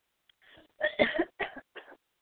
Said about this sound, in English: Excuse me, I must cough for a second.